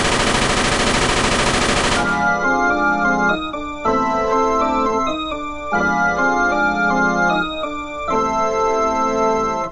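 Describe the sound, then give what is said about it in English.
Tommy gun machine-gun fire in a radio drama sound effect: a dense, loud, rapid burst lasting about two seconds, then cutting straight into loud dramatic music that carries on to the end. “Maybe these Tommy guns are all the option that we need. Red Panda, get down! Let him have it,”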